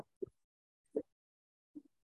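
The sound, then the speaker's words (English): A dog barking in three short, muffled, low-pitched bursts spaced evenly apart, faint against near silence. “And of course, my dog barked again, but that's okay.”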